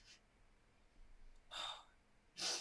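Sniffles from someone getting emotional: three short, breathy nasal sniffs with quiet pauses between them. They are faint overall, and the last one is the sharpest.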